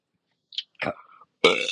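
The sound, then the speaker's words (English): Short burps from a person who no longer drinks mineral water: a faint click, then a low rumbling belch and a louder, rougher burp at the end, separated by brief silences. “my burps are not happening as much as they used to because I'm not allowed to drink mineral water anymore”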